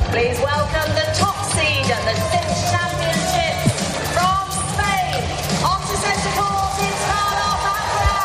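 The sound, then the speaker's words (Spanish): A tennis crowd at the Queen's grass-court tournament greets Carlos Alcaraz with cheering, whoops and calls of many overlapping voices, loud and sustained throughout. “Con la vista puesta en Wimbledon, que arranca en 2 semanas, Alcaraz debuta en el torneo de Queens, donde ha sido recibido así por el público inglés.”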